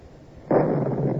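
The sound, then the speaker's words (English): A small cannon firing a shell, loaded with 1 3/4 pounds of powder and set off with a linstock to the fuse. A sudden loud blast bursts in and rolls on as a sustained, roaring rush. “There, sir. You can see the shell rising over the masthead. Oh, it's not a hit. The shell burst in the air.”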